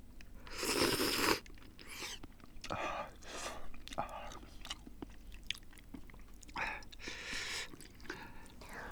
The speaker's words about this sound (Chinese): 慢点吃，别烫着，刚煮好的面可烫了。